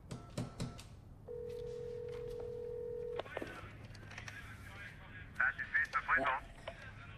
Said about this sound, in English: It's working. I hooked up the phone!